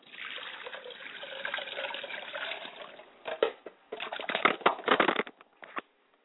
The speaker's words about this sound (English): And I pour libations to the south, and I say Ashe. I wash my hands and face so that my face is not stale as I meet my ancestors.